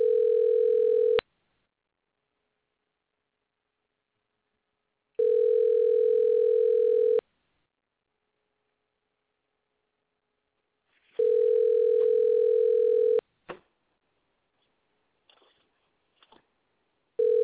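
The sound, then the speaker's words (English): Telephone dial tone heard while a call is being dialed: three long, steady, mid-pitched tone bursts separated by gaps of silence, followed by a few faint clicks. “Why don't you call him up? We're dialing right now.”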